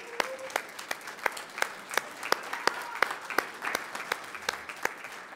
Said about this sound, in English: I think God needs an applaud for just that one as well.